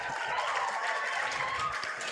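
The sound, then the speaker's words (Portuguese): An audience at a school ceremony applauds a teacher, a steady wash of many hands clapping that holds at an even level throughout. “As palmas para a nossa professora.”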